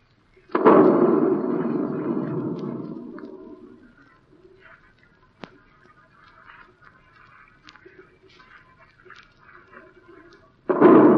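Artillery guns fire on command: one loud boom with a long rumbling decay, then a quiet stretch of faint crackles and a sharp click, and a second boom at the end.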